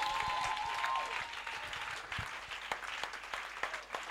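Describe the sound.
A church audience applauding in acclamation during a service: faint, steady clapping with a few sharper hand-claps standing out toward the end.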